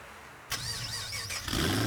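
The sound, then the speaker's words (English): A car engine fires up and revs, its wavering mid-pitched drone holding steady and then swelling louder toward the end, in a promo for a car, bike and truck show. “Rev your engines. The Tarago Car, Bike and Truck Show is roaring into town this Sunday”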